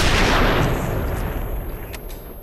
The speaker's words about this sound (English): Puts a gun in his mouth and pulls that trigger.